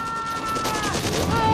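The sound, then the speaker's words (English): Gunfire erupts during a battle scene in an action drama, a rapid continuous volley of shots that stays loud and dense throughout, with a few thin tonal whines over the barrage. “He's shooting at us! God damn it! Shoot your fucking weapon!”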